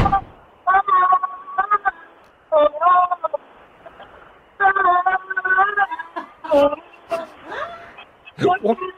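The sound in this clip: A caller on a radio show sings along to a song, heard through a phone line as a series of held, wavering melodic phrases broken by short gaps.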